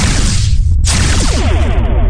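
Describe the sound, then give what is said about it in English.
Spaceship weapons fire on a colony depot as a loud, roaring blast with a heavy, rumbling low end. It dips for an instant, then surges on with a gritty, pulsing rush. “Spoonheads are finally awake. Colony defenses are locking onto us. Firing.”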